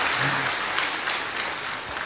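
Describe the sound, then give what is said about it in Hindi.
Sustained applause from an audience at a gathering: dense, continuous clapping that holds a steady, fairly loud level for about two seconds without letting up. “आज आप तालियां बजा सकते हैं अपनी खुशी के इजहार में।”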